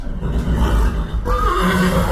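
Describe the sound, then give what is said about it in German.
Horses whinny in a stud farm stable holding about 40 breeding horses, one loud, harsh whinny with a shrill, wavering tone standing out over steady low rumbling noise. “rund 40 Zuchtpferde im Stall”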